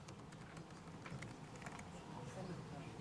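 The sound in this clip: Quiet typing of a password on a computer keyboard, with a quick run of soft, closely spaced key presses.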